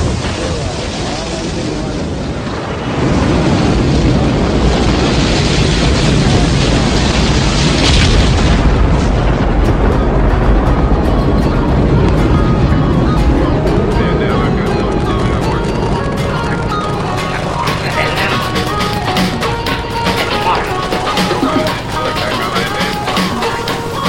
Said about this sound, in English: 12, 11, 10, 9. Ignition sequence start. 6, 5, 4, 3, 2, 1.